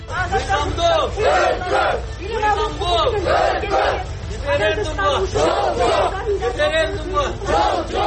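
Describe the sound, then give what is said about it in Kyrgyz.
A crowd chants slogans in unison against a referendum during a Sunday peace march by activists in Bishkek. The chant is loud and rhythmic, with many repeated voiced bursts rising and falling in a steady cadence. “Бишкекте активисттердин ар жекшембиде өтчү мыйзамдуулук үчүн деп аталган кезектеги тынчтык жүрүшүнүн катышуучулары бүгүн референдумга каршы ураан чакырышты.”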